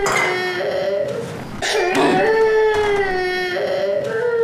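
A young child cries in drawn-out, tonal wailing sobs that dip briefly near the middle before the wail swells again and carries on to the end.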